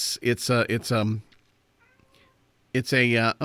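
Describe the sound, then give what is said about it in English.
Faint meowing from a cat in the background fills a quiet pause between stretches of people talking. “I think I hear a little kitty cat in the background there.”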